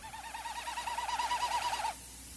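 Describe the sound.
Common snipe display winnowing in Newfoundland, a faint, hollow, fast-pulsing hum that wavers steadily for about two seconds, then cuts off abruptly.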